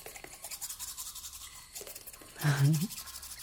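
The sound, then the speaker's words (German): A black toothbrush scrubs against teeth in rapid, rhythmic bristle strokes. A short voiced hum rises over the brushing partway through. “Das ist übrigens eine ganz besondere Zahnbürste, die schwarze.”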